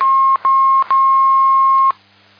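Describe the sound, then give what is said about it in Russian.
An electronic telephone tone sounds as a call is connected: a steady mid-pitched beep cut by two brief gaps into three stretches, the last one longest, with faint clicks at the breaks, then silence. “Сейчас, минутку, я соединяю, да?”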